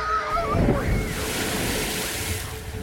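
Waves of rising tide water sweep in as a steady, broad rushing roar that holds at an even loudness, with a windy hiss running through it.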